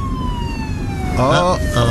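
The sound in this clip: A police car siren sounds as the car pulls a driver over, a wailing tone that repeatedly sweeps and falls. A voice speaks briefly over it midway through.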